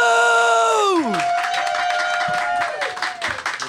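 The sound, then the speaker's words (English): An audience applauds and cheers for a comedian at a stand-up show in Edinburgh. A sustained harmonic tone slides downward first, then dense clapping and whoops follow, staying loud before thinning slightly near the end. “So everybody, put your hands together for Gabriel Ebulu!”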